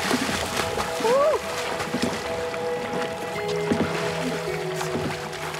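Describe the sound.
Water splashing and sloshing as a man goes swimming with his sons after his release, a steady wash of splashes with voices calling faintly over it.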